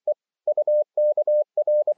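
A radio receiver beeps Morse code in one steady mid-pitched tone, sending a quick run of short dots and longer dashes with brief gaps. The signal is loud and clean, and a sharp click closes it.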